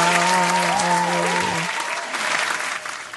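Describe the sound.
Applause from a show audience welcomes a guest, with dense, steady clapping from a crowd that holds throughout and eases off slightly toward the end.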